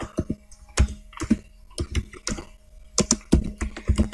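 Typing on a computer keyboard while entering link text: many irregular clicking keystrokes in quick bursts with short pauses between them, fairly crisp, with no talk over them.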